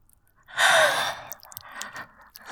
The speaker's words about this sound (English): Deep breath in.